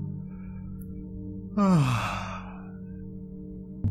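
A person yawning at bedtime: one drawn-out, voiced yawn whose tone slides downward in pitch, following a quiet, low hum.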